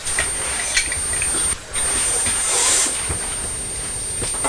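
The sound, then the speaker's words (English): Tap water runs over red cherries in a bowl as they are rinsed, a continuous rushing hiss that briefly drops away for a moment and then resumes steadily. “I'm just going to rinse them under the tap. I think they've been washed already, actually, before I put them in the bowl, but... And then! Just give them another quick rinse.”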